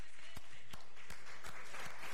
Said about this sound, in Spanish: Con esta asamblea, el aplauso de esta asamblea, le damos el pase a nuestro presidente Nicolás Maduro.